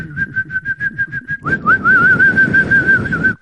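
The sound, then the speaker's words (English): A whistled catcall: a quick series of short, steady-pitched whistle notes, then one long, sustained whistle that wavers slightly in pitch, loud and alone with no talking. “Is this coming with a catcall?”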